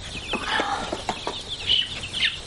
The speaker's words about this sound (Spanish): Ella continúa concentrada separando los pollos.